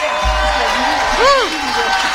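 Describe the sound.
An audience at a live show cheers and applauds, a broad wash of crowd noise and clapping with a voice calling out over it.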